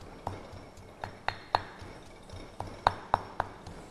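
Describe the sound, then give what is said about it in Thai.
Pestle pounding curry paste with turmeric in a mortar for Thai sai ua sausage: many irregular sharp knocks with a bright clinking ring, fairly faint between strikes. “เครื่องแกงนะคะเราก็จะต้องตำให้ละเอียดไปเลยนะคะโขลกให้ละเอียดนะคะ”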